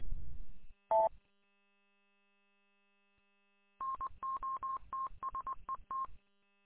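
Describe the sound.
Telephone keypad dialing tones sent over a two-way radio link: a single tone, a pause, then a quick run of many short beeps, with a faint steady hum underneath.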